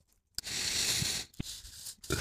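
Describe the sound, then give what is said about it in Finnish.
A pen scratching on paper while an answer is written, with a few long, rough strokes separated by short pauses. “Okei, anna mä kirjoitan ennen.”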